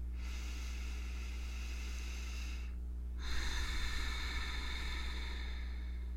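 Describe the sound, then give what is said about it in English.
Long, slow, deep breath in a guided calming meditation: about three seconds of soft airy inhaling, a short pause, then a fuller, rougher exhale, all over a steady low hum. “There, a healing breath that fills your body with fresh, new air.”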